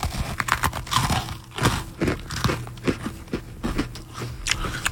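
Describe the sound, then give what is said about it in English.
Chicken and waffles being eaten with the mouth open, giving many wet smacks and crisp crunches in an irregular chewing rhythm, with no talk over them. “People listening to radio love to hear personalities eat on the air. I'll eat with my mouth open to get the sounds.”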